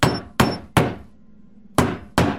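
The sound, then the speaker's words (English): A hammer drives nails into wooden planks over a crawl space with five sharp, loud blows. Three come in quick succession, then a pause, then two more. “He holds nails in his mouth as he hammers away.”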